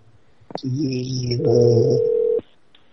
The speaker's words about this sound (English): That's a conference. Call cell phone.